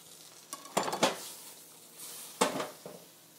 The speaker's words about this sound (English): And I'm going to pour a little water from these water chestnuts that I'm going to throw in there. And I'm going to throw some more garlic in there.